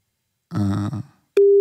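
Telephone ringing tone on a call to a mobile number leading to a call center: a short buzzy burst, then a loud, steady, unbroken tone that starts abruptly and holds to the end.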